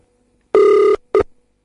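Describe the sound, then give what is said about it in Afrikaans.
Telephone ringback heard while placing an outgoing call: one sustained electronic ring followed by a second, much shorter burst that cuts off, loud and alone. “Ons kyk of ons hom op sy vrou se nommer gaan kry. Kom ons kyk gou. Ek bel gou.”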